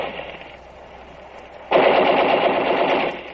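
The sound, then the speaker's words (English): Machine-gun fire rattles out as a dense, rapid burst that starts abruptly partway through and holds loud and steady for over a second, after a quieter stretch of rough noise. “up that hill to where the machine gun is supposed to be. There was cover all right, but those bullets were chipping rocks all around us.”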